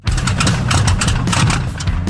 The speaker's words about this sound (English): Are you a petrol head, an aviation fanatic, or just someone who loves the smell of fuel, roaring engines and full throttle action?